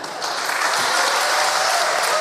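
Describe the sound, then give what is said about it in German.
Enthusiastic audience applause rewarding a speaker, a dense, even roar of clapping that rises quickly after a brief quiet start and holds steady and loud to the end. “So sprach Viktor zum Publikum, das ihn mit großem Applaus belohnte.”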